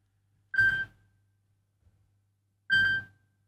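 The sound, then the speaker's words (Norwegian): A telephone rings, two short electronic ring bursts separated by a long silent pause. “Det ringer”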